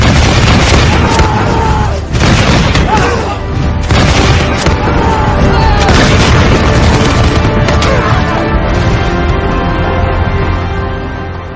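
Volley of matchlock musket fire in the battle of Jemmingen in marshy ground: many loud, overlapping booming blasts and crackling reports run together into a continuous roar that eases slightly toward the end.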